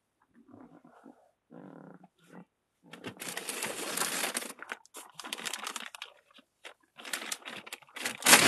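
A plastic bag is crinkled and crumpled in irregular, loud rustling bursts, with a few softer, lower scrunching sounds before the crackling grows denser; no talking.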